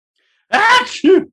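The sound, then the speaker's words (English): One loud human sneeze, a drawn-out voiced build-up followed by a short, sharp burst. “Sorry, I had to lean away quick and sneeze.”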